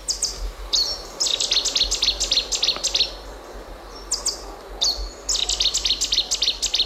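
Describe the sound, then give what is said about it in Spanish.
Cetti's warbler singing in riverside woodland: several loud, abrupt bursts of rapid, high, clipped notes separated by short pauses, over a low steady background hum. “Este es el ruiseñor bastardo, que tiene así un nombre como muy, ¿no? Bueno, tiene un nombre imponente.”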